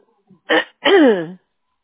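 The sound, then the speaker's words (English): Someone coughs because of allergies: a faint catch, then two short throaty bursts, the second longer and voiced with a falling pitch. “Sorry if I keep, like, coughing. I have this, like, I don't know what it is, allergies or something's going on”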